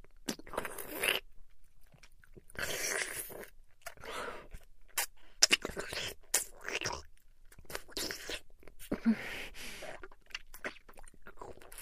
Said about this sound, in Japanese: 根元まで食べちゃっていいよね。いいよね。食べちゃおう。